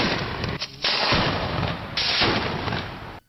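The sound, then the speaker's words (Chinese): Three firecracker salvos open a carp funeral ritual at the entrance of Carp Creek village, each a loud, dense crackling burst of about a second, with the three following almost back to back. “鱼字仪式进行开始，鸣炮三声。”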